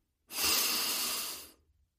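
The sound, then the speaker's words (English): One long, deep breath rushing out as a soft, airy hiss that stays steady for over a second and then fades away. “Now, take a deep breath.”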